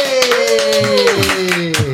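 Applause greeting a guest as he is welcomed: a dense run of hand claps, loud and continuous, over a sustained tonal sound.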